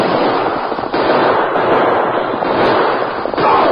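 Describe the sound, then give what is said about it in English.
Gunfire in a Western radio drama shootout during a wild horse round-up, a loud, dense and continuous barrage of crackling shots filling the whole stretch with no pauses. “Turn on them guns. Let go of them, too. Shoot. Cut them down.”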